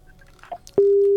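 Busy tone on a call-in phone line after a caller is cut off: a few faint clicks and rustles, then a loud, steady, unbroken tone that starts abruptly and holds to the end.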